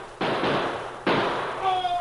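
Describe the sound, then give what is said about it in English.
Two gunshots in a radio drama shootout between an outlaw gang and a posse: two sharp, loud bursts, each trailing into a long noisy decay, followed by a thin high ringing tone at the end. “The gang shot little Bill and Butch.”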